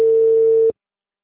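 Telephone ringback tone as an outgoing call connects: one steady, mid-pitched electronic tone lasting under a second, then cutting off abruptly into silence.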